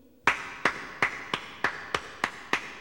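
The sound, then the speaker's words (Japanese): Steady rhythmic handclapping after a lively amateur musical staged in a borrowed school gymnasium: nine crisp, evenly spaced claps at a brisk, unchanging pace, each with a short bright tail. “拍手？”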